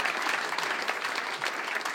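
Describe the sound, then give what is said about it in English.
Audience applause welcoming a comedian to the stage: dense, steady clapping from a crowd, loud and continuous throughout with no talk over it. “Give him a big round of applause. Get him up here, ladies and gentlemen.”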